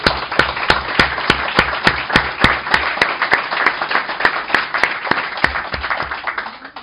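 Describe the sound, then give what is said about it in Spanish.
An audience applauds at a talk on media and communication, with dense clapping steadily throughout and sharp, regularly spaced louder claps cutting through, fading slightly near the end. “Den un aplauso, por favor.”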